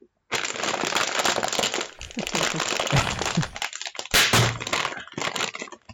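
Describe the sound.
A bag of barbecue chips is cracked open with loud, sustained crinkling and crackling of the plastic in several bursts and short pauses, then a sharper crackle near the end.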